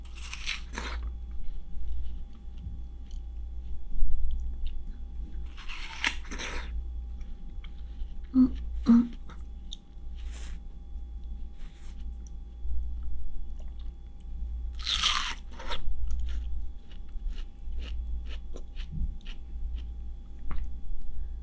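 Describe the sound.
Someone bites into and chews juicy watermelon: a few loud, wet crunching bites stand out against softer, quieter chewing in between.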